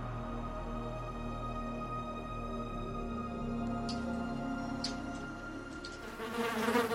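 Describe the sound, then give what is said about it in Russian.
A housefly buzzes steadily as it flies from a wall down to a concrete floor. The droning hum holds even throughout and swells louder near the end as the insect comes closer. “Муха потерла лапки и перелетела со стены на бетонный пол.”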